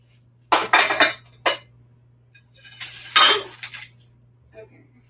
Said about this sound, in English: I'll slice up more of these rolls first.